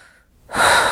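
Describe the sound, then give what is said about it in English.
One big, deep breath is drawn in during a calming tapping exercise: a loud, airy rush that starts abruptly after near-silence and holds steady to the end. “Tap the cheeks. Big deep breath.”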